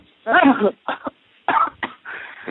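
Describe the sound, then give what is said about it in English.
A person coughs in a few short, harsh bursts in quick succession, some rough and voiced like throat clearing, with brief pauses between them. “Quit coughing.”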